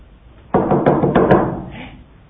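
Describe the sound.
Knocking on a door: a quick run of several firm, hollow raps in a row, then a short fading tail.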